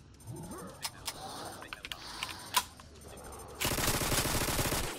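Burst-fire gunshots from a Glock 17 pistol in a video game: several sharp, fairly quiet cracks come at irregular intervals, then a louder, sustained rattling burst runs to the end.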